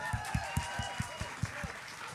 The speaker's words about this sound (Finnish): Aplodit sille.